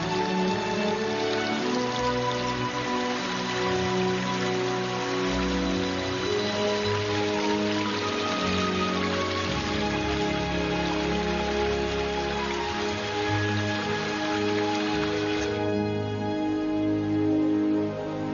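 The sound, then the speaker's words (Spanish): Heavy rain falls on a jungle with brimming streams and waterfalls, a steady hiss of drops that runs throughout beside sustained musical tones. “Los arroyos se colman de agua de lluvia y con sus incontables cascadas traen un toque de magia a la selva.”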